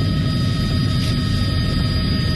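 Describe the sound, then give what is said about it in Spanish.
A military helicopter flies over the city of Guayaquil, making a steady, loud roar of rotor and engine noise that holds without a break through the whole clip, with no voices. “Billetes de $100 caían desde un helicóptero militar sobre varios sectores del norte, centro y sur de Guayaquil.”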